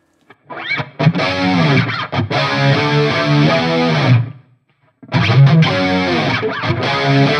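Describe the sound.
Distorted electric guitar tone for a rendition of Hold the Line, in a Steve Lukather style: two loud, gritty, sustained chord phrases, the first about four seconds long, separated by a short silence.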